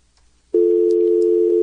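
Steady telephone dial tone on a line while trying to connect a caller, starting abruptly after a brief near-silence and holding loud and unbroken to the end, with no talk over it.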